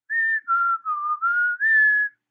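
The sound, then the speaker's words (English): Whistling captured on a recording: a clear, pure-toned tune of five sustained notes that steps down in pitch through the middle, then climbs back to a higher, longer final note, with no voices. “After the man speaks, whistling is recorded.”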